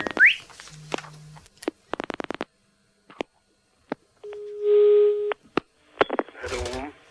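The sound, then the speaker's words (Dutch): Telephone line tones sound while a call is placed: short steady beeps, a rapid run of clicks and a longer held tone, with a voice briefly at the end. “Wie gaat Jacques Plafond nu weer eens bellen?”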